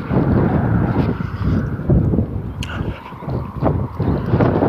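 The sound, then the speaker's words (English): Wind buffeting the microphone outdoors while a person walks briskly: a loud, steady low rumble with surging gusts throughout. “Back in the wind. If I sound a little breathless, it's because I'm trying to walk a little faster.”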